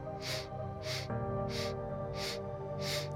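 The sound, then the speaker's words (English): Five short, evenly spaced sniffs as breath is drawn in through the nose in separate parts, each a soft hissing burst over a steady musical tone underneath. “Inhale through the nose in 5 parts.”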